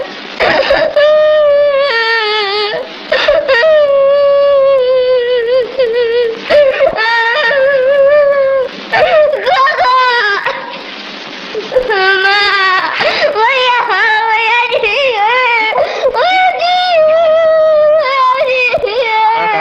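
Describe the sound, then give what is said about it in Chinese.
A child cries loudly in long, wavering wails and sobs, with short breaks for breath between the cries. The cries rise and fall in pitch throughout. “乖孩子，别哭。”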